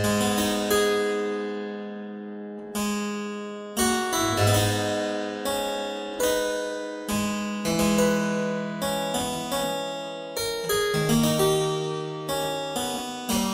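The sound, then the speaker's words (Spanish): A virginal, a small plucked keyboard instrument of the harpsichord family, plays a bright, fast-moving piece with crisp, twangy plucked notes and a brief pause early on before the lively run of notes resumes. “El virginal, la verdad es que suena como un poquito más suciete, ¿no?”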